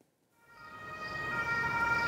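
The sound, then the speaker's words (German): Ambulance siren of an arriving ambulance at a hospital emergency department, rising in from near silence and growing steadily louder with a sustained tonal wail over about two seconds, no talk. “Es ist der dritte Rettungswagen in 30 Minuten, der vor die Notaufnahme des Krankenhauses in Sömmerda fährt.”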